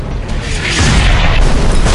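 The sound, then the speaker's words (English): Heavy boom of mortar shell explosions from a concentrated high-explosive barrage, a loud low blast that swells after a brief lead-in and rolls on as a sustained rumbling roar. “More mortar shells screamed overhead, raining down on the Vill.”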